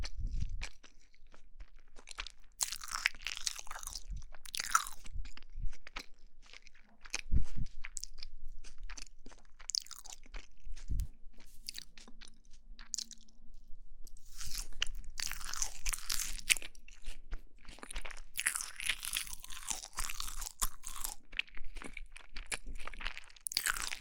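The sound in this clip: Someone biting and chewing a small cake, with many crisp, crunchy bites and soft mouth sounds in an uneven rhythm, quiet but continuous throughout.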